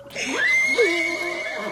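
A horse neighs in the fog, giving a single loud whinny with wavering, quavering pitch that trails off toward the end.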